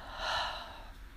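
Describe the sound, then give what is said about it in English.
A single deep inhale, taken standing with feet planted in a wide stance and a hand on the heart, swells softly and then trails away into quiet breath noise, with no talking. “Take a deep breath.”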